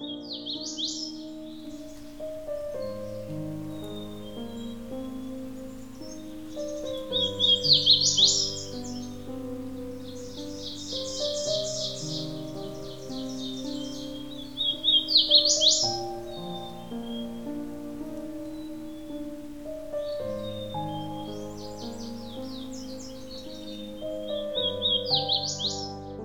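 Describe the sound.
Birds sing in a breeding-season field recording: short bursts of high chirps and trills come and go over a steady, lower tonal background.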